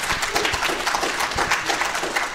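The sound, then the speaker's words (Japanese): An audience at a church gathering claps in dense, steady applause that continues throughout without a break. “We can clap. Yeah. 拍手でございます。”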